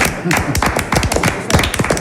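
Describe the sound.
Small studio audience clapping for a radio quiz contestant: many quick, sharp hand claps in an uneven, busy rhythm, fairly loud and close together throughout.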